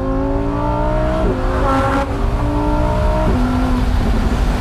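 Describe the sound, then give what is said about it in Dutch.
An orange Lamborghini Huracán Spider EVO rear-wheel-drive engine revs loud and alone, its pitch climbing steadily and then dropping sharply at two gear changes before rising again. “Lamborghini Huracan Spider Evo Rear Wheel Drive.”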